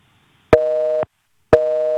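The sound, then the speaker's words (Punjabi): Telephone busy signal on a dropped call: two identical steady mid-pitched beeps, each about half a second long, separated by a half-second silence, clear and alone. “ਲੱਗਦਾ ਫਿਰ busy ਚੱਲ ਗਈ ਤੁਹਾਡੀ, ਮੈਂ ਤੁਹਾਨੂੰ hold 'ਤੇ ਪਾਇਆ, ਦੁਬਾਰਾ ਡਾਇਲ ਕਰ ਲਵੋ।”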